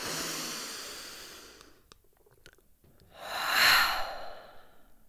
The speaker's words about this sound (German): Atme ein letztes Mal tief ein.